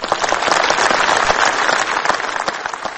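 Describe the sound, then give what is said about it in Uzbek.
Audience applause for foreign guests at an official ceremony, a thick, continuous burst of many hands clapping, strong throughout and thinning slightly toward the end. “barcha aziz mehmonlarimizga yurakdan chiqqan olqishlarimiz, qarsaklarimiz bilan o'z hurmat ehtiromimizni izhor etsak, ayni muddao bo'lardi.”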